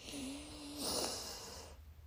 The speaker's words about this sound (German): Machen wir es mal jetzt direkt. Nimmst du mal einen tiefen Atemzug ein.